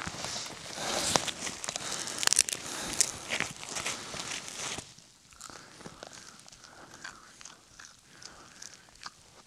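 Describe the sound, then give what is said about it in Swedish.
Crunching and tearing of cattail roots being pulled up from the ground during wilderness survival in Uppland. Dense, crackly bursts are loud at first, then fade to quieter, sparser rustling and snapping. “Men se där! Här har vi faktiskt lite kaveldun. De rötterna går att käka vet jag.”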